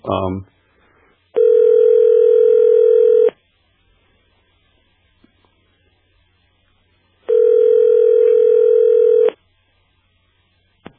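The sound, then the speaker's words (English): Telephone line tones sound as a call is dialled: two long, steady, loud tones separated by a few seconds of near silence. “if you guys got the number there, if you guys can just dial.”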